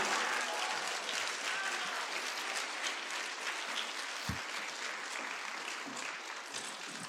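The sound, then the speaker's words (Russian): Audience applause at an awards ceremony: dense, steady clapping fills the whole stretch at an even level, with no talk over it. “Ваши аплодисменты.”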